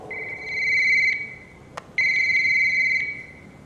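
Electronic telephone ringtone for an incoming call, heard as two sustained, bright warbling ring bursts separated by a short pause with a single sharp click in the gap, clear and fairly loud with no talk.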